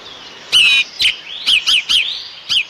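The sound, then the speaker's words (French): Golden oriole song: several rich, fluting whistled phrases at a bright pitch, each short and clear, coming in irregular bursts with brief pauses between them and no voices. “Et voilà un loriot. Vous avez entendu ? Ça, c'est un timbre doré merveilleux, c'est tout à fait différent.”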